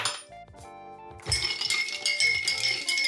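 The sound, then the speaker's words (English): Ice clinks in a glass as a vodka shot is stirred for a brunch Bloody Mary: many bright, ringing clinks and knocks that grow busier and louder partway through. “I'm going to have to grab some ice and get a shot of vodka. Give that a stir.”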